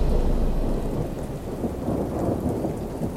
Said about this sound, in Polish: Pioruny uderzały w kamienne mury, jeden po drugim.